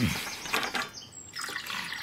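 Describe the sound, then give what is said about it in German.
Tea being poured, a soft, quiet trickling of liquid in uneven bursts with a brief dip midway. “Gieß mir bitte Tee ein.”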